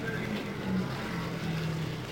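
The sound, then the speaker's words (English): Race cars roll past on the track in a steady, unbroken engine roar with a low hum beneath, and no distinct single passes or voices stand out. “Still on the track, rolling by in front of us, Tony Bettenhausen”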